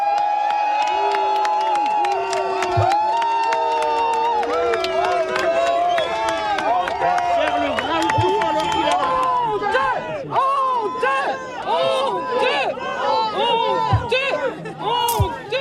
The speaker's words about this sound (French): Je vous propose d'écouter l'accueil justement réservé par les quelques dizaines d'habitants du Porche présents auprès du ministre ce matin.